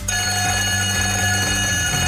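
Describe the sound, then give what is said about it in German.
A break bell like a school bell rings, played on a radio station between songs. It is a bright, continuous metallic ringing with a rapid rattling clapper that holds steady and loud for about two seconds. “Da wird es zwischen zwei Liedern eine Pausenglocke geben. Die klingt so.”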